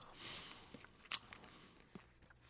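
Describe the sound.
Someone eats a butter caramel snack, making soft, quiet mouth and chewing sounds with one sharper crunchy bite near the middle and no talking.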